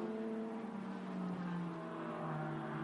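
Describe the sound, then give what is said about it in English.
A McLaren race car, number 44, spins on a track. Its engine gives a steady, droning tone at moderate level, with the note sagging slightly. “Moisey Uretsky's gone for a spin down in the inner loop.”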